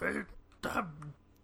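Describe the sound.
Throat clearing: two rough, harsh bursts in quick succession, the second trailing into a brief low voiced rasp, moderately loud and otherwise quiet.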